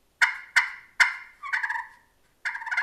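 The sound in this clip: Yelping from a turkey call soundboard being scratched: three short, sharp raspy yelps in quick succession, then two longer, fluttering rough notes after a pause. Nobody speaks.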